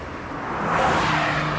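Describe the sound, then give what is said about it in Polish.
A Honda HR-V with a 1.5 turbo engine drives past. Its engine note swells from a soft hum to a fuller, louder whoosh, then holds steady before cutting off abruptly. “Nadjeżdżają święta wielkiej mocy. Napędzane nową mocą. Nowa Honda HR-V. Teraz z nowym silnikiem 1.5 Turbo.”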